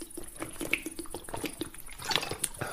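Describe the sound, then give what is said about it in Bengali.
Water poured from a flask into a glass: a steady run of small splashes, gurgles and drips, fairly soft and continuous with no talk over it. “টেবিলের উপর রাখা flask থেকে গেলাসে জল ঢেলে”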